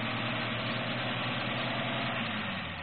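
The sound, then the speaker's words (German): A car engine runs steadily as a man drives to a garage, giving a continuous, even mid-to-low rumble with a faint vibrating texture. It stays at a constant level throughout, with no voices. “Hören Sie. Das ist Herr Brandt. Er fährt zu der Garage.”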